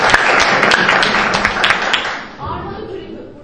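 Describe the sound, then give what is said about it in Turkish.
A group taking part in a points-scored competition gets applause: dense, brisk clapping that fades away after about two seconds, leaving a low, quieter background. “Alkışlayalım efendim birinci grubumuzu.”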